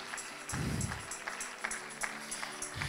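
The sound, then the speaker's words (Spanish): Faint applause from a church audience during a worship service, a quiet patter with a few sharper claps standing out and a brief low rumble near the start. “Dale un aplauso y dale gloria”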